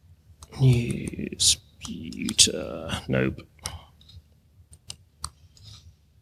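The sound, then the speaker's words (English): Keyboard typing on a computer, with sharp clicks and taps in an irregular run, mixed with some soft vocal sounds early on before the isolated keystrokes take over. “Sorry, can't type when people are watching.”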